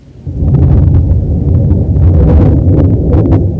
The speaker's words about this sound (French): un éclair le foudroya.